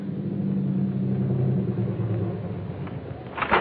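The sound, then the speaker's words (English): Steady low rumble of a car engine left running while parked at a drive-in, continuous and even throughout, with a brief louder burst near the end. “you can keep the motor running while I'm gone”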